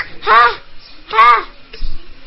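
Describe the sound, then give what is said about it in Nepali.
A crow cawing: two drawn-out, hoarse, harmonic caws about a second apart, followed by a shorter, fainter sound. “यो कौवाले नि हैराने पारे।”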